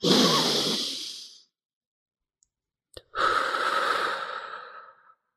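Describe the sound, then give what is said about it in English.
A long, deep breath taken together before a portrait session: a breathy inhale of about a second and a half, then a quiet pause with faint clicks, then a steadier, longer exhale of about two seconds. “let's take a deep breath together now. And I have them do it with me and I do a long one”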